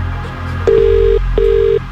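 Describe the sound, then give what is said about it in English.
A telephone dials out for a radio prize call, sounding two loud, sustained keypad beeps of the same pitch separated by a short gap, with no voices. “Keep a close eye on your phone. We're making this call right now.”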